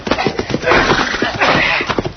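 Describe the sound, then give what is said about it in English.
Hooves clopping as a horse is led out in a Western-style scene: a quick, uneven run of many clops over a busy, steady background that stays fairly loud throughout. “Pull out that horse”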